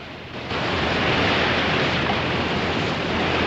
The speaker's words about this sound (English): The slack in the line is taken up, and Lawrence swings out some 50 feet above churning waves as he begins his slow, precarious transfer to the flagship.